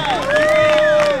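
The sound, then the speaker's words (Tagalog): An audience bursts into loud applause and cheering. Quick clapping runs under a sustained whooping voice for about a second. “dagang salamat, kaayos sa inyohang pagpamalakpak”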